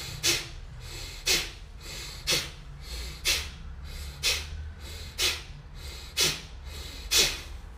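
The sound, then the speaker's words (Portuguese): Forceful exhalations sharply compress the lungs during a breathing exercise, eight strong, breathy whooshes at a steady pace of about one per second over a soft, continuous background. “Vamos fazer só 10 expirações. Forte. Comprime os pulmões.”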